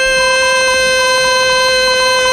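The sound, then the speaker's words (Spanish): A football goal horn blares in one continuous, loud, buzzy tone with rich harmonics, held steadily for more than two seconds with no voices. “el pito del gol de Leche. Gol, gol, gol, gol, gol, gol, gol.”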